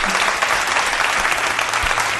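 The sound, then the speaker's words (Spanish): Applause from the radio audience in Málaga: dense, steady clapping that holds at an even level for the whole stretch, with no talk over it. “Y los aplausos de los oyentes de Málaga.”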